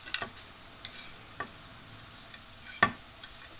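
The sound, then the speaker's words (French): Salted potatoes fry in oil in a pot, giving a faint, quiet sizzle broken by a few scattered, sharp crackles and pops. “Donc tu remets les patates sur le feu, là, c'est ça? Les patates sur le feu, un peu de sel.”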